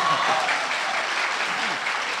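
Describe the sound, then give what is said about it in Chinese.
A crowd applauds to welcome a performer onto the stage at a live comic opera show, with thick, continuous clapping holding a steady loudness for the whole moment. “那观众这掌声多热情啊！”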